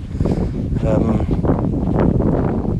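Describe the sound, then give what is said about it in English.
Strong wind buffets the microphone beside a river, a continuous low, roaring rumble with uneven gusts throughout. “I think there's too much wind. You're going to suffer the wind, aren't you?”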